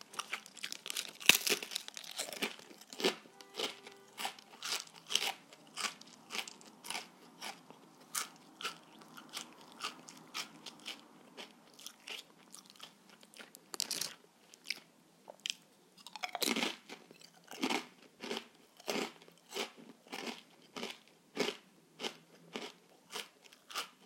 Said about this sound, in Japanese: 甘エビのエビせんですまたちょっと形というか見た目が違います